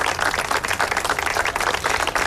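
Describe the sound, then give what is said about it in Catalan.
Applause from attendees at a sober memorial ceremony with a floral offering, breaking a minute of silence; many hands clap in a dense, fast, continuous patter at a fairly strong, even level throughout. “Memorial de la Pau i un minut de silenci que s'ha trencat amb els aplaudiments dels assistents.”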